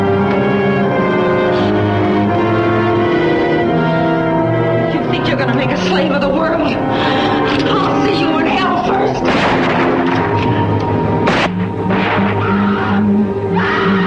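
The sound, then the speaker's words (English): A pump-action rifle fires repeatedly at a monster in a film scene. Many loud, booming shots blend into dense, continuous music and effects. “But she is good with that pump action rifle. Yep. She is like, she is unloading a lot of hot lead into that monster.”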